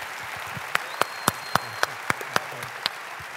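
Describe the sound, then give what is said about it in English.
A church audience applauds, a steady wash of crowd clapping with several sharper individual claps standing out at irregular intervals. “On all three campuses, put your hands together. Let's give a great CCV welcome for Todd.”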